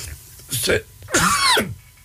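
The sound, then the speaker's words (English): A person coughs twice. The second cough is longer and louder than the first, with a brief gap between them. “pardon me, I'm going to cough.”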